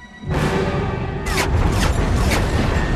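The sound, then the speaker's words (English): Gunfire hitting a ship starts with a sudden loud boom and continues as a heavy, unbroken rumble with several sharp crashing bursts on top. “Who is shooting at us? Better question is, how do we shoot back?”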